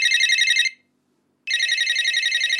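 A telephone rings as calls begin to come in, with two loud, trilling electronic bursts separated by a short silent gap.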